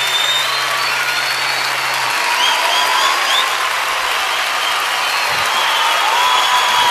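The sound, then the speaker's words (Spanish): Applause fills the room at an award ceremony, a steady, loud wash of clapping that holds evenly for the whole seven seconds without any single voice standing out. “Fuerte el aplauso.”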